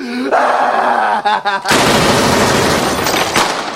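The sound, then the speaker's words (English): Loud rapid gunfire breaks out in a sustained, dense volley after a raised voice, and the harsh cracking continues to the end. “Stop it! Stop it! Don't shoot that little mother no more!”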